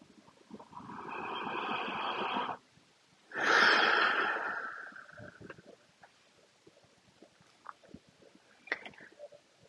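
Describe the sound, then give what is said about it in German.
A deep breath: two long, loud, breathy rushes of air, the second one stronger, followed by near quiet with only faint small clicks and rustles. “Noch ein tiefer Atemzug, weil es so schön ist.”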